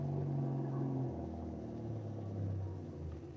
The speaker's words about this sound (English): Motorboat coming up to the dock.